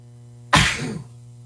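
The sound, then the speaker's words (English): A single sharp human sneeze bursts out loudly and abruptly, then trails off briefly over a faint steady hum. “I got to sneeze, and then we're going to play this thing. I don't know why I have to sneeze.”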